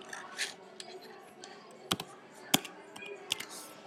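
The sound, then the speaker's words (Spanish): Soft tapping of a computer keyboard as a name is typed for an event, with irregular faint keystrokes and a few sharper clicks. “Aquí tú le puedes editar el nombre, como pueden ver, voy a escribir el mismo.”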